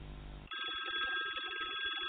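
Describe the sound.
A telephone rings for an incoming call. After a short burst of low rumbling noise, a bright, steady electronic trill starts abruptly and keeps ringing, loud and unbroken, to the end.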